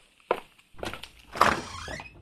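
A door being opened at home: a dull thunk, then a burst of handling noise and a louder knock-like clatter before fainter rattling trails off.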